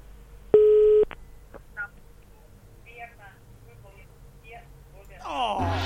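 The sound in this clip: A telephone call is dialled for a radio call-in contest: a steady tone holds for about half a second, then a short blip sounds. Faint voices and small noises follow, and a rush of noise rises at the end.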